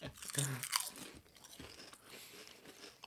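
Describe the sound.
Crunching of ketchup-flavored potato chips being bitten and chewed: a few sharp, loud crunches in the first second, then quieter, steady chewing noises.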